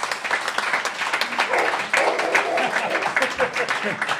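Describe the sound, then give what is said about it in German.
Audience applause as a guest walks onto the stage at a live show. Dense, lively clapping runs throughout, with voices talking over it. “der kann einfach jetzt zu uns auf die Bühne kommen. Applaus!”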